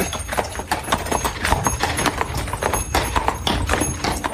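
Hooves clip-clop steadily as a horse-drawn carriage sets off along a path, an even, brisk run of many hoof strikes throughout.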